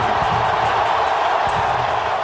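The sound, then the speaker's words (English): Loud crowd roar at a Boston basketball arena reacting to Kobe Bryant in his final game there in December 2015: a dense, sustained wash of many voices at a steady, high level. “Mix of cheers and boos there for Kobe Bryant.”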